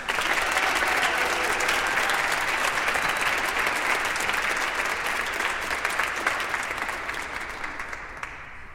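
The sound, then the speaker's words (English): Audience applause welcoming the New Life Band, a visiting group from Arusha, Tanzania: dense, sustained clapping from many hands that stays loud and then slowly thins toward the end, with no talk over it. “So please, with a warm welcome, give it up for the New Life Band.”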